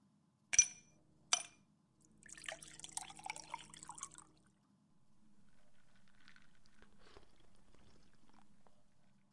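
Whisky poured into a glass: two sharp clinks, then a gurgling, splashing pour, followed by a softer sustained liquid sound. All of it is quiet.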